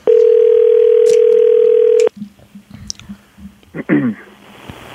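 Ringback tone of an outgoing telephone call: one loud, steady electronic tone held for about two seconds, then it stops and a few faint clicks and rustles follow.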